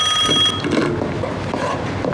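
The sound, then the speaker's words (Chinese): A telephone rings with a bright, rapid bell-like trill for a factory director. The ring carries on without pause and no voices are heard. “你看这两天啊，这电话就没断过。”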